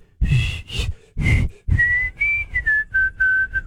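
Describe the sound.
A man whistles a song melody alone in a string of clear, high notes. Some notes are short and breathy, others long and steady, stepping up and down in pitch.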